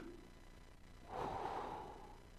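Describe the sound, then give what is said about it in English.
A long, deep inhaling breath: a soft, airy rush that swells and holds for over a second, quiet and alone. “I'm going to continue to inhale.”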